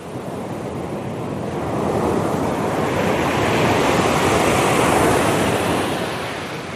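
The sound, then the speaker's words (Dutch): Surf breaking on a pebble beach in Suffolk, a continuous rushing wash of water that swells gradually to a broad peak midway, holds, then eases slightly toward the end. “En het valt hem op dat de branding daar anders klinkt dan bij ons. Geen zandstrand, maar kiezels.”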